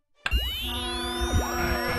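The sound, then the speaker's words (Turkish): A radio cutting out as its battery dies during a football match broadcast: a sudden electronic burst of warbling tones that sweep up and down over a steady harmonic hum for about two seconds. “Aa, radyonun pili bitti sanırım.”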